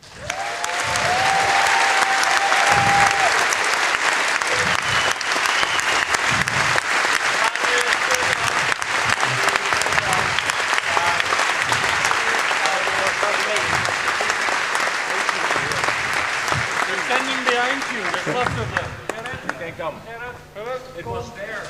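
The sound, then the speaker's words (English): Warm applause from an audience welcoming a chief of safety to the stage: a loud, dense patter of many hands that runs on steadily, then thins near the end as a voice begins speaking. “So if you would please give a really warm welcome and hand to our Chief of Safety, Moritz, who had a hard time, but he did wonderfully.”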